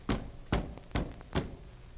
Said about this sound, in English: There was a terrible pounding on the door.